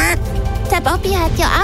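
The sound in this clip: Duck quacks come as a few loud, short nasal calls with bent pitch, spaced irregularly within a comedic sketch, with voices talking around them.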